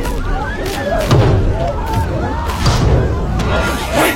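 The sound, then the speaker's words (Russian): Heavy thuds of a foot kicking the glass of a closed door, a few dull blows at a steady, deliberate pace under a man's voice talking. “стоит перед закрытой дверью и методично, силой бьет ногой по стеклу”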